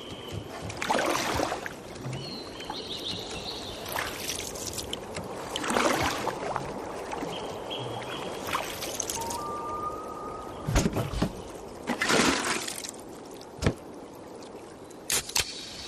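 Water sloshing and splashing around a canoe in a Coors Light beer advert, a few separate splashy bursts rising out of a quiet, trickling watery background.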